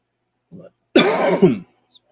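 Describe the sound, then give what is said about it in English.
A harsh throat-clearing cough, with a small grunt followed by one loud rasping burst of under a second, standing alone against silence. “had a coughing fit”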